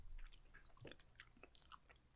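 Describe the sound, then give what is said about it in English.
Someone chews food, and faint, irregular crunches, clicks and wet smacks come at an uneven pace with nothing else over them. “I'm sorry, podcast world, but I'm chewing.”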